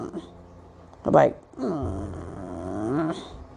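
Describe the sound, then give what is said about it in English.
A human voice imitates an irritated dog or cat blowing: a short breathy puff, then a longer, low, rumbling voiced groan that wavers in pitch. “You ever see your dog or your cat just start blowing or like making noise like”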